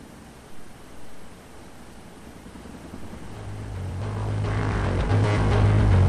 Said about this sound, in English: Now in the air, the helicopter speeds toward the rendezvous point.